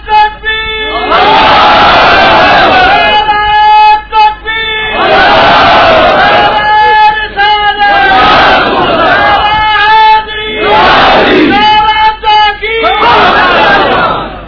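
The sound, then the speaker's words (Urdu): A large crowd chants a slogan in loud unison during a religious scholar's address. The massed voices roar in repeated sustained bursts separated by short breaks, strong and forceful throughout. “ایک دفعہ اگر اس سے زیادہ زور کے ساتھ آپ نعرہ سنا سکیں تو بڑی مہربانی۔”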